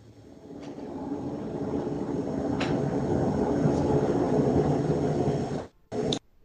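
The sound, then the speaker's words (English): A train goes by a house with a broad, low rumble that swells at the start and stays steady and loud for several seconds. It then cuts off abruptly with a brief dip near the end. No one talks. “Is there a plane coming in for a landing? What was that? That's a train going by my house.”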